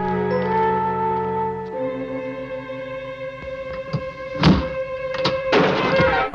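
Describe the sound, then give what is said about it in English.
A hidden switch on the hand of a suit of armour gives a few dull mechanical thunks, the loudest near the end, over sustained background music. “Press down on one of the suit of armor's hands.”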